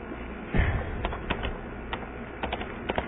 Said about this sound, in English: I will put this in writing, inshallah, so that you, inshallah, you remember it very well, inshallah.